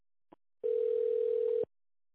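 A telephone line tone sounds while a caller is on hold for an operator: a faint click, then one steady, mid-pitched beep lasting about a second, followed by silence.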